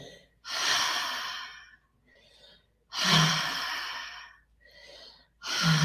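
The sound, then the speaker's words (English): Slow, deep breathing during a breathing exercise: long, loud, airy inhales and exhales alternate with shorter, softer breaths in a steady, unhurried rhythm, with no talking. “Power up your breath with the inhale. Relax your exhales.”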